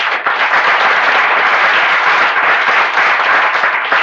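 Steady, loud applause from an audience in a legislature gallery, welcoming a guest from Haines, keeps an even, dense texture of many hands throughout with no break.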